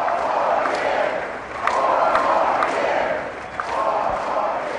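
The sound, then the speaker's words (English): A Catholic audience of over 2,000 cheers President Bush as if at a campaign rally. The massed voices and cheering swell and ebb in waves, dipping briefly twice before rising again. “The Catholic audience of more than 2,000 gave the president the kind of reception usually heard at campaign pep rallies.”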